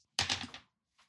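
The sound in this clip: Dice rolled during a tabletop game give one short, dry clatter of knocks lasting about half a second, followed by a faint brief tap.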